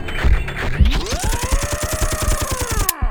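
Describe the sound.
Rapid machine-gun fire: a sustained burst of many evenly spaced shots over a whining tone that climbs in pitch and then holds, ending abruptly.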